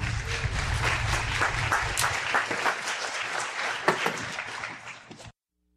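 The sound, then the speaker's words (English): Audience applause welcoming a guest speaker at a morning church service: dense, sustained clapping from a crowd that thins out toward the end and then stops abruptly. “Hands together and welcome Adam Hosmer. He's going to be our guest speaker this morning.”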